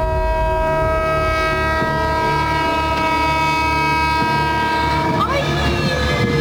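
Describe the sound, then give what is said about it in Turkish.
A moving train's horn sounds long and steady at a level crossing in Elazığ as the train nears a car stuck on the crossing. The unbroken, loud tone sits over low rumbling and drops in pitch near the end. “Hareket halindeki tren hemzemin geçitteki otomobili görünce uzun uzun siren çaldı.”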